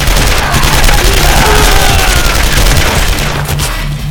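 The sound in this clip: Machine pistol gunfire erupts as doors open: a loud, dense, continuous rattle of rapid shots that fills the whole stretch without a break.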